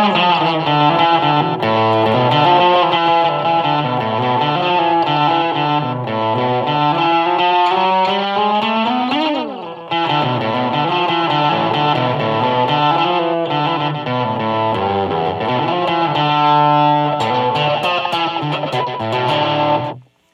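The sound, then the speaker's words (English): Electric guitar played through the SansAmp distortion on a Tech21 Fly Rig 5 multi-effects pedal gives a loud, continuous, heavily saturated tone with shifting notes and chords. It drops out briefly near the middle, then plays on until it cuts off at the end. “I just turned on the Sans Amp”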